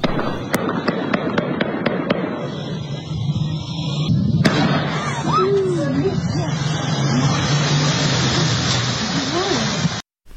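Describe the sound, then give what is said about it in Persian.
Continuous gunfire from a heavy armed clash between military forces and unidentified gunmen using light and semi-heavy weapons: a run of sharp evenly spaced shots gives way to dense, sustained crackling fire, with voices. “که در آن صدای پیوسته شلیک گلوله شنیده می‌شود”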